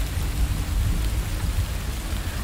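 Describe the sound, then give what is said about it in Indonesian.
Heavy, unseasonal rain pours down in a steady, dense hiss, loud and continuous throughout, with no voices. “Hari ini hujan lagi. Lebih deras dari yang kemarin.”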